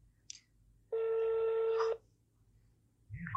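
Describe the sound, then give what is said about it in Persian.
A telephone tone sounds as a call is placed: one steady electronic tone with a bright buzzy edge holds for about a second. A tiny high blip comes before it, and a louder, rougher sound enters at the very end. “بذار من یه بار زنگش بزنم ببینم چیکار مونده.”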